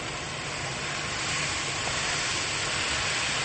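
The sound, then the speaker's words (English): Onion stirred in a hot sizzling pan, giving a steady, loud, continuous hiss of frying throughout. “Now, Time for a bit of stirring.”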